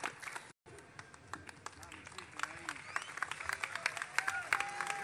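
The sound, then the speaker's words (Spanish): Applause from an audience at a closing event, a dense patter of many clapping hands that builds toward the end, with a voice audible through it. “Fuerte el aplauso para Héctor”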